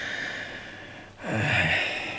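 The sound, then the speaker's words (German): A deep breath drawn in by a patient after airway surgery to remove a cyst, one long airy inhale that swells in loudness after a brief dip, over a steady background hiss. “Tief einatmen.”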